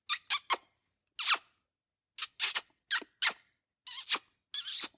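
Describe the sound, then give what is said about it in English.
High, quiet squeaks made by kissing the back of a hand to imitate a rodent call used to lure a coyote: about ten brief, sharp chirps in small clusters, separated by silence. “this is a good time to just make some quiet squeaking sounds, like kissing the back of your hand. That sounds like this.”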